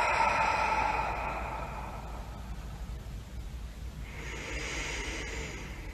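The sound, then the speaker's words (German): Slow, deep breathing, drawn in through the nose and let out through an open mouth, heard as long, soft, airy hissing breaths with no voices. “Atme tief durch die Nase ein und durch den geöffneten Mund aus.”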